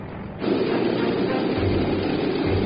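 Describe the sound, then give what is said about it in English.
Steady, loud engine roar from a C-46 cargo plane preparing for takeoff on a bright, cold morning in the Northwest Territories. The noise swells abruptly after a brief quieter moment and then holds a constant, rumbling level with no voices. “A bright, cold morning in the Northwest Territories. And a Buffalo Airways C-46 gets set for takeoff.”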